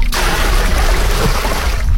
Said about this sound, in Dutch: Even kijken, emmertje in de bak. Water erin, ja.